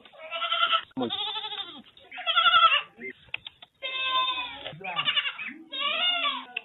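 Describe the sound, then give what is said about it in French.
Goats bleating, about twenty young goats kept in a pen behind a house, calling in a series of wavering, nasal cries that overlap one another with only brief pauses between them. “Richard a construit un enclos qui abrite une vingtaine de cabris”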